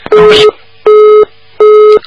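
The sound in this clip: A telephone busy signal after a misdialed call: three loud, steady electronic tone bursts of equal length, evenly spaced by short silences.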